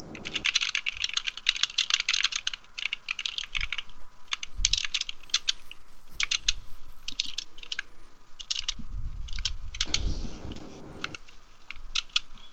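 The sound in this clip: Typing a message on a computer keyboard: many rapid keystroke clicks in uneven bursts with short pauses, running steadily through the whole stretch, with occasional soft low thumps and no talk.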